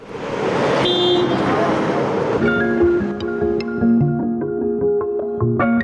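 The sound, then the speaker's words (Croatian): Inside a bus without air conditioning riding through congested Belgrade summer traffic, a loud steady rumble of engine and road noise carries on throughout, joined by tonal whines and a few sharp clicks. “Naš Ognjan Zorić vodi vas kroz jednu vožnju autobusom u Beogradu.”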